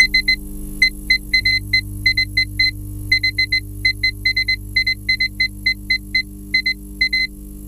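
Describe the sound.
An encrypted coded message plays as many short, high electronic beeps in uneven groups and pauses, like a coded signal, over a steady low hum.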